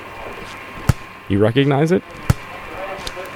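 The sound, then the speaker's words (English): A plastic ball of the kind sold in big store cages bounces on a hard floor: two sharp, hollow thuds about a second and a half apart, with a brief spoken question between them. “It's the sound of one of those plastic balls that they sell in one of those great cages.”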